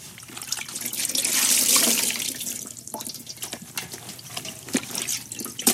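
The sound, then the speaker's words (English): Water sloshes and splashes as clothes are washed by hand in a wash bowl, with a swelling surge of rushing water early on, then irregular splashes, trickles and drips. “So I did one of a sort of wash bowl, and I'm washing clothes by hand.”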